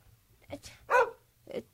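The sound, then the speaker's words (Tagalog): A house dog barks a few times in quick, faint yelps, the middle bark the loudest and fullest, with short pauses between them. “Ang ingay mong aso ka!”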